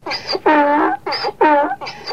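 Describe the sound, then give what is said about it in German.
Loud donkey braying: a series of harmonic calls that alternate between a higher, wheezy tone and a lower, groaning tone in a repeated hee-haw rhythm, with brief gaps between them. “In den Mittelmeerländern schreien die Esel, wenn sie brünstig sind. Im Tessin auch.”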